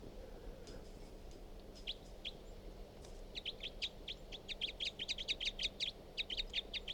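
High, chirping bird calls in an outdoor field recording: a few scattered notes at first, then a rapid, steady run of many short chirps that grows a little louder toward the end.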